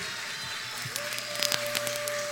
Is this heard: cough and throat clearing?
no